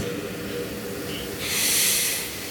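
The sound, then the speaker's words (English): One deep breath taken during a calming grounding exercise: a soft, airy hiss swells through the second half and then eases off, heard alone over a low background. “maybe we can start by just taking a deep breath, right? Deep breath.”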